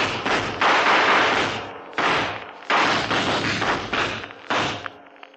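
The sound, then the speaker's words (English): An explosion as a cornered gunman is blown up in a crime drama: several loud, heavy bursts of rumbling crash noise in quick succession, each dying away briefly before the next, with no talk. “Okay, blow him up.”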